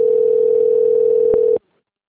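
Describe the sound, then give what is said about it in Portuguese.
A single steady telephone tone rings out on one even pitch for about a second and a half, then cuts off abruptly into silence. “Ah, tá ligando”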